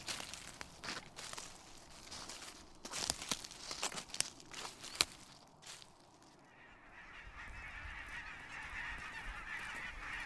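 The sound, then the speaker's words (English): Geese migrating south for the winter in October give many ragged honking calls, loose and irregular. The calls are thicker at first, then thin out into a soft, steady background hiss. “Do you hear that? That's the call of the geese on their way south for the winter.”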